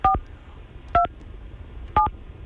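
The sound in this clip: A telephone number being dialed with DTMF tones: three short dual-pitched touch-tone beeps, evenly spaced about a second apart, each clear and crisp over a quiet background.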